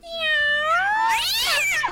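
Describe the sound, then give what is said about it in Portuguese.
A cat that fell from a moving truck gives one long, drawn-out meow that climbs steadily in pitch, peaks loud and strained, then drops away. “Só tem o gato do Didi que caiu do caminhão da mudança.”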